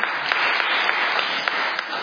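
An audience applauds with dense, continuous clapping that stays at an even, moderately loud level for about two seconds.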